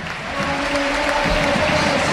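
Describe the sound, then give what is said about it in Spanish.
Stadium crowd at a football match applauding a player who is being substituted off. The dense, continuous ovation holds steady and full throughout. “Uno que se va de Joaquín. Ovación de gala para él.”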